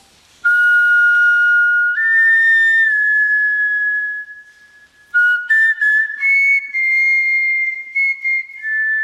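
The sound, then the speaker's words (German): Replica flute made from griffon vulture bone, played in long, breathy, pure whistling tones: a sustained note that steps up in pitch and holds, a brief lull, then shorter held notes climbing a little higher. “Aber weil es auch heute noch Gänsegeier gibt, hat man die Flöte nachgebaut. Und diese nachgebaute Flöte haben Flötenspielerinnen auch schon ausprobiert. Und das klang dann so.”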